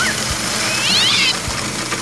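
Meowing of a three-month-old Persian kitten, a few short high mews wavering in pitch over a steady loud whirring of a blender motor.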